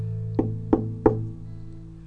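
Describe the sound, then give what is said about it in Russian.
Three evenly spaced knocks on a door, sharp and fairly loud, over a steady low drone. “Гномы вдруг в тишине постучали в двери.”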